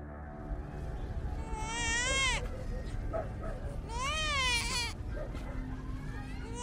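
A baby cries in two wavering, high-pitched wails separated by a pause, fairly faint over a steady low background hum.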